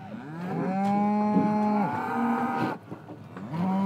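A bull weighing over a tonne gives a long, deep, loud moo with rich harmonics that dips and then fades. A second bellow begins just after.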